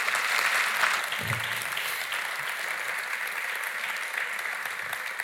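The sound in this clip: Steady, dense audience applause welcoming the interviewers to an evening conversation. It holds at an even loudness throughout, with no voices over it.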